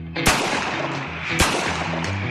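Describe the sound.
Two sharp, loud gunshots from six-gun revolvers at a cowboy pistol shoot-off contest, about a second apart, each with a short ringing tail over a steady background hum.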